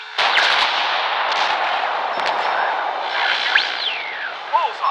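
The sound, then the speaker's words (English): Gunfire from an airship's gun shooting at a monolith-like island, with a few sharp bangs near the start over a continuous roaring rumble and another crack partway through. “Ensign, keep firing at that monolith.”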